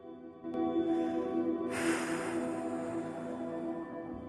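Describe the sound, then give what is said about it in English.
A woman takes a deep breath while sitting on a bed looking at old photographs: a long, breathy hiss that begins partway through and holds steady over a constant low tonal background. “Studying the photos, she takes a deep breath.”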